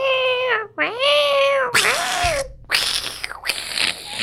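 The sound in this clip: Cats yowl and meow loudly in long, drawn-out, wavering cries that overlap one another, like a fight. Harsh, noisy bursts break in toward the end.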